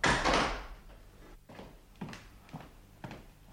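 A door opens in a hotel room with a loud, rushing scrape at the start. It settles into quiet, broken by a few soft knocks and clicks.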